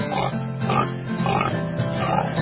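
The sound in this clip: A pig grunting and oinking in a quick rhythmic series of nasal, buzzy calls that run on without a pause, fairly loud and steady.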